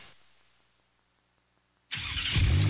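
A Porsche car engine starting: a few faint clicks, then a sudden loud roar as the engine fires and holds a strong, steady rumble.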